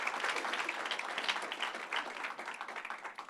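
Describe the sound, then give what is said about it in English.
Audience applause welcomes a pastor and national-champion team chaplain onto the stage: dense, steady clapping from many hands that holds at an even level throughout, with no talk. “Come on, let's give it up for him. Let's welcome Pastor Robby up here, national champion.”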